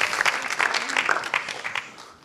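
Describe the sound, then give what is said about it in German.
Festival crowd applauding as guests are called to the front, a busy patter of many clapping hands that stays lively before thinning and fading toward the end. “Großer Applaus bitte.”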